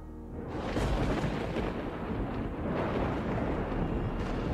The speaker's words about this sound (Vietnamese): Ở trên bầu trời, sấm sét đã bắt đầu nổi lên đùng đùng, chuẩn bị cho một cơn mưa dữ tợn.